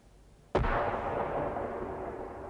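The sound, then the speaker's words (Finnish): A single cannon shot fired toward a road from a quiet summer-night spruce forest. One sudden, sharp blast breaks the near-silence, then a long, rumbling roar slowly fades. “Tykillä ampuu. Tykillä. Maantien suuntaan menee.”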